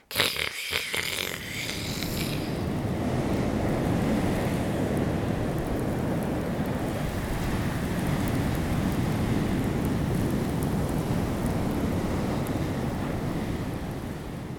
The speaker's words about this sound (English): But every so often, the wind picks up and makes it sing.